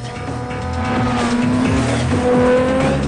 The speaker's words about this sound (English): A helicopter spotlight moves across the road as a police car skids round a corner.